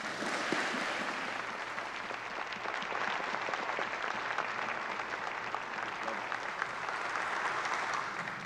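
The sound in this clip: A church audience applauds to welcome a guest speaker after a scripture reading, giving a steady, even wash of clapping that holds for about eight seconds at a fairly low level without pausing.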